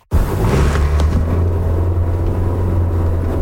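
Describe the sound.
A car driving along a city boulevard gives a steady low engine and road rumble that starts abruptly and holds an even, loud drone to the end, with no talking.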